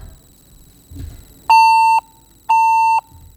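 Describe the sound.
Beeps from a phone call that has been disconnected: two steady, mid-pitched electronic tones, each about half a second long and separated by a short gap, loud and clean after a few faint rustles.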